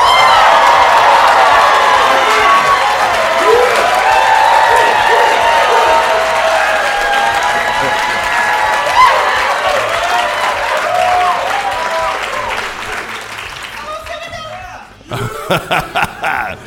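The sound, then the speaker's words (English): A live audience at a university college in Beijing applauds and cheers loudly, with dense clapping, whoops and scattered laughter that sustain for most of the stretch before dropping away near the end. “Let's see you Schwartzman scholars and other friends make some noise.”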